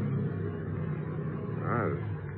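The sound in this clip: A car engine runs rough after being choked, a radio drama effect: a steady, fairly faint low rumble, with a brief wavering whine rising above it near the end.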